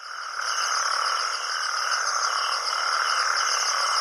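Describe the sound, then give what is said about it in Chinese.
Male natterjack toads give mating calls at night from a rain-filled breeding pond in the Mediterranean after heavy rain, a loud, dense chorus of continuous trilling that never pauses. “这是雄性黄条被蟾蜍求偶的叫声。”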